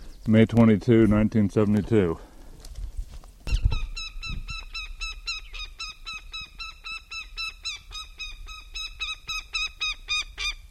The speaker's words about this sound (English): goshawk at nest,